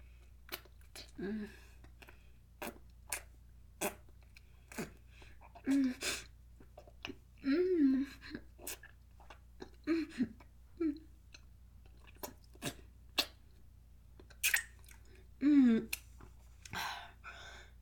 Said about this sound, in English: It sounds like this. I'm just going to show you by sucking on my fingers, okay?